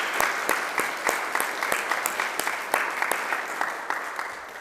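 Audience applause breaks out to congratulate a man on his anniversary, a dense, steady patter of many hands clapping that holds for the whole stretch before easing slightly at the end.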